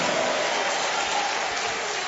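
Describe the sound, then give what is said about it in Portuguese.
A church audience applauds during a worship service, giving a dense, steady patter of many hands that holds at an even level for the whole two seconds. “Pode aplaudir ao Senhor e dar glória a Deus.”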